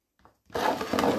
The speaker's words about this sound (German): So, und die letzte Kartoffel. Auch noch den schneiden. Scharfes Messer ist hier ganz wichtig, weil sonst zerdrückst du die Kartoffeln und schneidest sie nicht in Stücke.